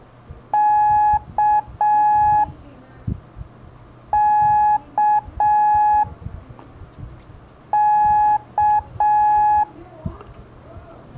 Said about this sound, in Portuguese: Vão ser a letra K de quilo, da, di, da. Da, di, da. Termina com som longo. K de quilo.